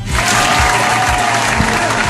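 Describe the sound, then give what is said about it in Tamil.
A group gives a player dense, steady applause after a game, sustained and evenly loud throughout. “இப்போ அண்ணா super விளையாண்டார்ல, அவருக்காக ஒரு கைத்தட்டல்.”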